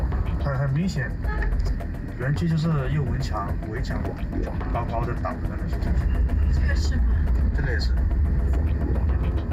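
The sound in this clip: Steady low rumble of a car driving along a road past scam compounds in Miawadi, a continuous droning engine and road noise heard under a voice talking.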